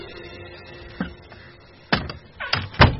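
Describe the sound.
Sounds at a door: a few sharp knocks and clatters, spaced irregularly and growing louder and closer together toward the end.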